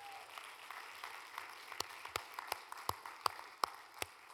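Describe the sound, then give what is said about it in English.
A church audience gives a hand clap of praise: quiet, scattered clapping that grows more distinct, with sharper individual claps standing out toward the end. “Let's give the Lord a hand clap of praise one more time.”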